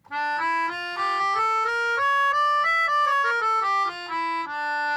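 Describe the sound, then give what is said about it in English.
A melodica plays a melody in the harmonic minor scale: a continuous stepwise line of sustained, reedy notes that climb and then descend, steady and fairly loud, with no voices. “I have a melodica with me so I can play it for you. It sounds like this.”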